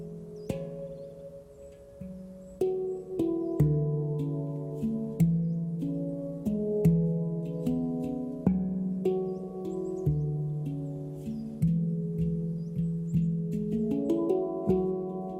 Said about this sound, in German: Kurz, was sind Handpans? Das sind diese Teile, die ich jetzt hier mal einspiele, denn ich glaube, wenn ihr sie hört, ist einem klar, was gemeint ist.